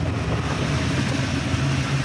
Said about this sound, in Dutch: Het is natuurlijk een heel klein voertuig. En hij beweegt mee in de bocht. Hij gaat flink op het gas.